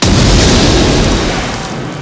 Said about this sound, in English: Lying injured at the bottom of the shaft, Helga shoots a flare. Nothing personal. The balloon ignites.